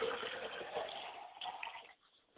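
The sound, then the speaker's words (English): Water poured out as a libation offering gives a soft, steady splashing trickle for about two seconds before stopping, faint and muffled. “We like to pour libations for our God, Oladulamare, and we say, I say to Oladulamare”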